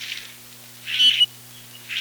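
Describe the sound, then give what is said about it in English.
Harsh calls of a common grackle, a blackbird, come as a few short, rasping bursts spaced about a second apart, each brief and fairly loud against a quiet background. “One other blackbird returns with the redwing, the grackle.”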